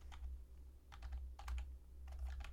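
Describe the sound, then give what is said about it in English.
Keyboard typing on a computer while a card name is entered into a search, heard as a few quick bursts of clicking keystrokes separated by short pauses over a steady low hum. “Quirion Ranger, did I spell it right? I did not.”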